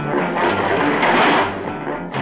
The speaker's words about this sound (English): Stepping into a high-speed elevator, the three scientists descend swiftly, 1,000 feet below the surface.